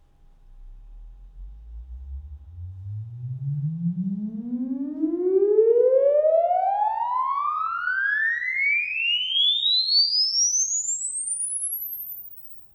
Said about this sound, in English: The sound system test will begin in 3, 2, 1.